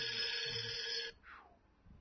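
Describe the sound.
A telephone rings for an incoming call: one faint, steady electronic ring tone that lasts about a second and then cuts off.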